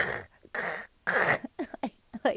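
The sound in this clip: A voice imitates a dog trying to scratch an itchy throat: three longer rasping, hacking bursts followed by a rapid run of shorter snorting huffs, loud and alone without speech.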